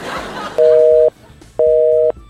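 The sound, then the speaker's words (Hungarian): Telephone line tone while a number is dialed: two steady, even beeps of about half a second each, separated by a short gap, after a brief noisy stretch at the start. “Most már biztos jó számot tárcsázok”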